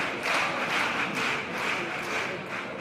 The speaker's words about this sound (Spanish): Oye, y el público, aplaudiendo en medio de una cupletina.